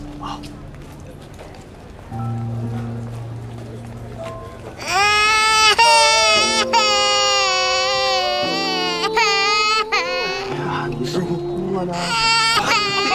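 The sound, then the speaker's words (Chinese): A young girl cries loudly in long, high, wailing sobs with wavering pitch that break off and resume several times, while adults talk quietly underneath and before the crying starts. “把您女儿吓哭了。 啊，没有，这孩子怕生，一遇到生人就爱哭，是不是？哎呦，哭得可伤心了。”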